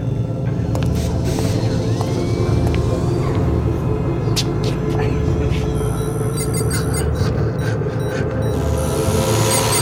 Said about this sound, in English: The atmosphere thrusters? Atmosphere? Oh, but that would mean... Yeah. We're landing.